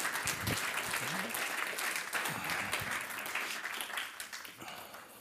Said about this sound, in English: And so would you put your hands together as we welcome them up?